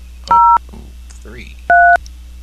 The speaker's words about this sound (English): If you know your party's extension, you may dial it at any time.